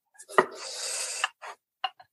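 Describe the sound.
A knife slices through rolled dough: one long, faint scraping stroke, then a few short, soft cuts with quiet gaps between them.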